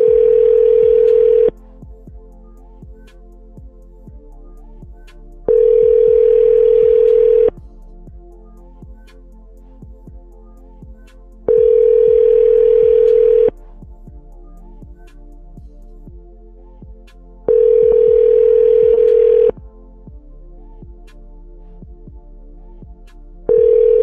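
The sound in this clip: A telephone call to a car phone rings through as five long, steady tones about six seconds apart, with a regular faint ticking and a low hum running underneath the whole time.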